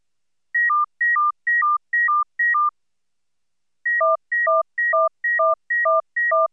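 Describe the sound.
Synthetic pure tones from an auditory streaming demonstration: five rapid alternating high-low tone pairs, a pause, then six more groups in which a third, lower tone sounds exactly together with each low tone.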